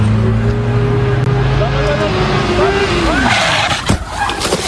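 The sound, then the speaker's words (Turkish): A speeding motorcycle crashes into a car turning on the road: a loud engine whine slides downward in pitch into a skidding rasp, and a sharp impact bang strikes near the end. “Görüntülerde süratle ilerleyen motosikletin yolda dönüş alan otomobile hızla çarptığı ve o anlara tanık olanların çığlıklarla büyük panik yaşadığı görüldü.”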